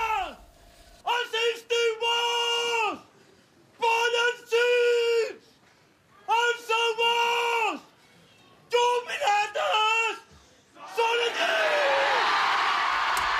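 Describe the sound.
A man bellows a series of loud, drawn-out cries at a mock Moors and Christians battle during a summer street festival in Pollença, Mallorca, with a broad burst of crowd cheering at the end.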